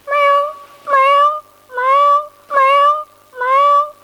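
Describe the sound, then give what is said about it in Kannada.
A human voice imitating a cat meowing in a mimicry act, giving five clear, evenly spaced, tonal meows that are loud and alone. “ಬೆಕ್ಕು ಹೀಗೆ ಶಬ್ದ ಮಾಡುತ್ತದೆ.”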